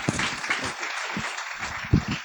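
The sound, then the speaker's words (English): A church audience applauds to welcome a preacher to the pulpit, with dense, steady clapping throughout and a few louder individual claps standing out. “let's put our hands together as we welcome him to the pulpit.”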